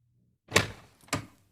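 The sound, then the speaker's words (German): Two sharp knocks on the door of a house in the woods late in the evening, with its windows lit. The knocks come about half a second apart, each a crisp hit that fades quickly into silence. “Maria klopfte an.”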